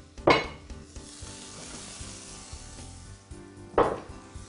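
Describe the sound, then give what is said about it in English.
Zucchini and summer squash cooking in a pan give off a steady, crackling sizzle. Two sharp clanks of a utensil against the pan stand out, one near the start and one near the end, with no talking. “I'm going to add them first and just get them a little bit cooked. And then I'm going to add my steamed vegetables. So we have here some zucchini and some summer squash.”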